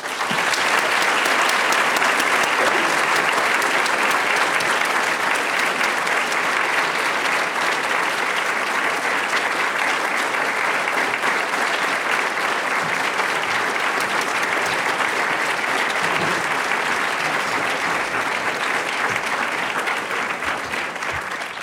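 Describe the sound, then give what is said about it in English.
Loud, steady audience applause greets a distinguished visitor taking the stage at a Stanford event. The dense clapping holds at an even level for the whole stretch, with no speech over it. “So please join me in welcoming to our stage the 2019 Mimi and Peter Haas Distinguished Visitor, Krista Tippett.”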